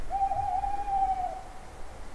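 An owl hooting in mossy woods gives a single long, clear, mid-pitched hoot, held level for over a second before fading out, over a soft, steady outdoor background.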